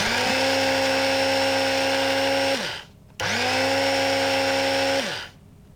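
A small electric grinder whirs as it grinds coffee for a traditional Ethiopian coffee ceremony. It runs in two bursts, each holding a steady high motor whine and then winding down in pitch before stopping.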